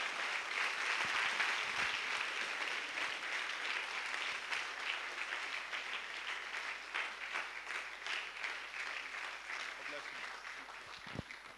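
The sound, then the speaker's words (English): A church audience on its feet applauds to welcome a pastor to a morning service. The steady clapping stays dense and even throughout, with some voices mixed in. “So why don't we all rise up to our feet, please. Put our hands together. And let's welcome Pastor Ivan as he comes to minister to us this morning.”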